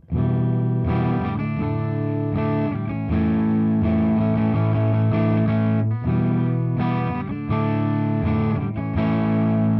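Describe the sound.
Clean electric guitar through an effects unit set to stock with every knob at noon, played into a JC120 amp. Loud sustained chords ring out with several changes, and there is no talk.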